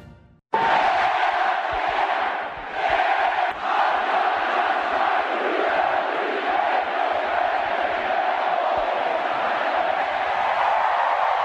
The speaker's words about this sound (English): Just 20,000 of our friends in Omaha who made a little noise as the Ole Miss Rebels have won the national championship of college baseball.